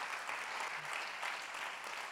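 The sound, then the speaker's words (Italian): Men of a church audience applaud during a Sunday gathering, producing faint, dense, steady clapping that continues evenly throughout. “Fratelli, dobbiamo fare un applauso, solo i fratelli, solo gli uomini, alzate bene la mano.”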